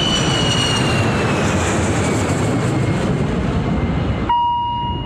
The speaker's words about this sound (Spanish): Despega el Boeing 630 de nuestra ciudad.